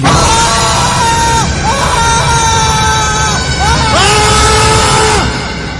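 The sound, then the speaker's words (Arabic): A man screaming, a scream that shakes the whole house: a few long, loud, sustained cries with harmonics, each gliding in pitch before breaking off. The last cry fades slightly at the end. “صرخة هزت البيت كله، كل اللي في البيت صحى على الصرخة دي.”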